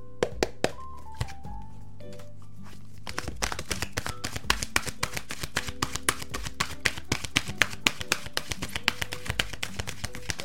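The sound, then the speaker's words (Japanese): Oracle cards being shuffled and one drawn: many rapid, crisp taps and flicks of card stock in an uneven rhythm, sparse at first and then dense and continuous. “はい、こちら、せーの、よいしょ。ディサイドザアウトカムのカードが出てきました。”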